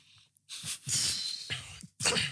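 Sneezes burst out in quick succession, a few sharp, breathy noise blasts with brief gaps between them, fairly loud and with no talk over them.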